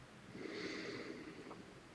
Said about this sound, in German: Atme ein paar Mal tief durch die Nase ein